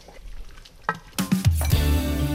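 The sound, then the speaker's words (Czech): Raw chopped potatoes, peppers and sausage are tipped into a pot of simmering goulash, giving a few soft thuds and clatters followed by steady bubbling and sizzling. “A přidáme syrový nakrájen brambory, papriku a klobásu. A vaříme dál.”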